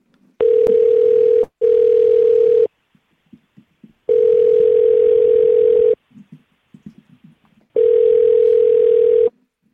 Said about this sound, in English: All right. I'm going to hit dial. Here we go.